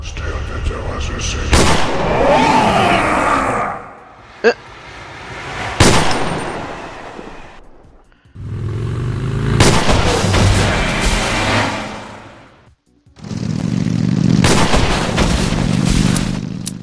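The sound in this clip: Gunfire erupts in a video game in several long, loud bursts of dense shots and booms, separated by brief gaps of near silence and one isolated sharp crack.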